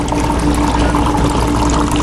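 Tap water runs in a continuous, loud, even hiss for the whole stretch, with a faint steady hum beneath it and no speech.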